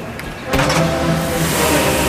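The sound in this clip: A white car reverses out of a parking space. Its engine noise cuts in abruptly about half a second in and then holds as a steady, fairly loud rumble to the end.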